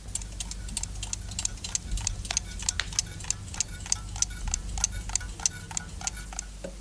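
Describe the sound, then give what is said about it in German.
Clocks tick together in many crisp, sharp clicks, their uneven, overlapping rhythm running steadily throughout. “Bloß die Uhren gehen noch.”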